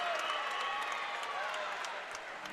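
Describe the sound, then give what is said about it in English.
Crowd cheering at a South Dakota Coyotes volleyball match, a loud, steady roar of many voices and scattered clapping that holds throughout and dips slightly near the end. “Excuse me, it does find the line. Everybody cheered. I thought they scored.”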